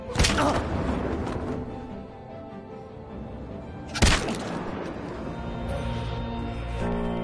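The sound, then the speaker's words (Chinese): A sniper's gunshot in the Korean film The Terror Live: a sharp, loud crack over a steady background, with a second similar crack about four seconds later. “突然一声枪响。”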